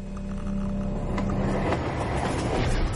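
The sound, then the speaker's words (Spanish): A train travels through city streets at night, giving a steady, heavy rumble with a continuous low roar and light clattering on top. “De noche, por las calles, Jack viaja en un tren.”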